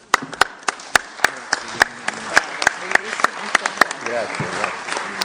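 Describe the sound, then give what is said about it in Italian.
Applause after a speech at a remembrance gathering for victims of the mafia comes as many sharp, separate hand claps in an uneven rhythm, while a voice talks over them. “l'applauso è per lei per il suo intervento”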